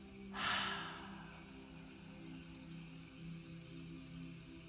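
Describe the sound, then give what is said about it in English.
An audible exhale during a deep-breathing exercise: a single breathy, hissing rush of air near the start, then a faint steady low hum. “Now, audible exhale.”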